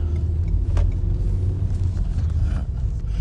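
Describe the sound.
A car's low engine rumble runs steadily throughout, with a dense, deep, unbroken drone and slight surges, and no voices.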